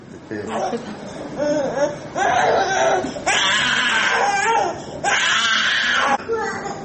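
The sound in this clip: A one-year-old baby cries without stopping during hemodialysis in a mother-and-child hospital's dialysis room, letting out long, wavering wails one after another with only short breaks between them.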